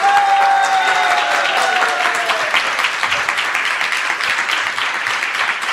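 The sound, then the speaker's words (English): Dense, steady applause from an audience at a devotional gathering of Krishna devotees, welcoming a visitor from out of town; continuous clapping fills the whole clip without pause. “Okay, let's give him a hand and welcome.”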